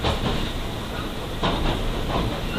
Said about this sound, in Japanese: 1番線に到着をいたします。